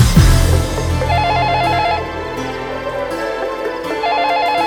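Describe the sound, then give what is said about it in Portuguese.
A telephone rings within a rap track, its warbling electronic trill in two bursts set over a low, thick music bed. “O telefone toca, pressentimento estranho.”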